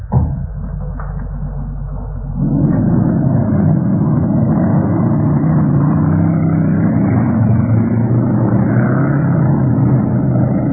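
A car engine accelerating hard with the pedal pressed to the floor, in a radio drama: a steady, rumbling roar that jumps louder after about two seconds and then holds at full strength to the end, with no voices.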